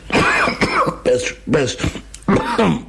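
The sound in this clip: Harsh coughing and throat clearing from someone recovering after choking, four loud rough bursts in quick succession.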